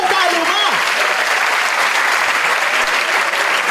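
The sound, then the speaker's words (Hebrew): Applause from an audience, a dense, steady wash of clapping that holds at an even loudness for about four seconds, with a voice briefly heard at the start. “איפה כפיים לזאת”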